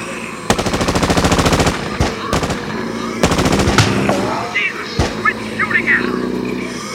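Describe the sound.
Turret machine gun firing from a van in a video game: several loud, rapid bursts, one long and others shorter, separated by pauses and underlaid by a vehicle engine rumble.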